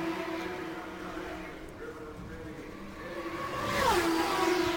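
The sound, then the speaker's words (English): IndyCar race cars lap the Indianapolis 500 oval. High engine tones drone under a commentator's voice, then swell near the end as one car passes, its pitch dropping sharply. “Meanwhile, it is Roberto Guerrero that continues to circulate the track and lead the Indianapolis 500. He comes off of turn four, completes another lap, and Davey Jones stays out.”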